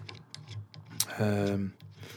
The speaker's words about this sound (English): So I'm just moving the pop shield around.